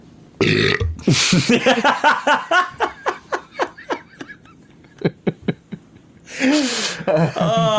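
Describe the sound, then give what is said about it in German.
A loud human burp, followed by a long run of rhythmic, breathy laughter in short pulses, then another rough, gurgling burst near the end. “Ich geh weg, ich wollte nicht, dass man das Gürbsli hört.”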